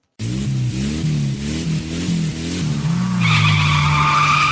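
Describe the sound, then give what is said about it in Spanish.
A race car's tyres skid while its engine surges, the low engine note rising and falling in repeated short pulses. A loud, sustained high tyre squeal then joins for the last second or so. “Derrapando.”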